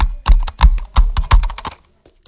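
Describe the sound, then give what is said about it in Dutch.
Computer mouse clicking in a studio: a handful of sharp, dry clicks in an uneven rhythm, loud and alone with no voices. “Wat heb ik nog meer hier in de studio? Ik heb een muis, wacht. Een muis. Even klikken met de muis.”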